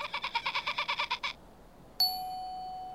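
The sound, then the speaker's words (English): A magpie calls in a rapid run of many harsh, chattering notes at an even pace. It stops, and after a short pause a single bright chime rings out and slowly fades. “Can you see the magpie now”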